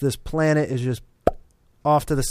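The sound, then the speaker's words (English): A single sharp plop sound effect, standing for a planet being born, pops up in a short gap between stretches of talk and rings briefly before fading. “It's beautiful. That's the sound of a planet being born.”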